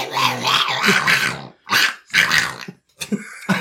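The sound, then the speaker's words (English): A guttural, growling voice imitating speech in a made-up Infernal tongue, in a few harsh, rasping bursts separated by short pauses. “I pretend to talk in Infernal. That's true, yeah. Is it just Latin-sounding nonsense? No, it's just guttural sound.”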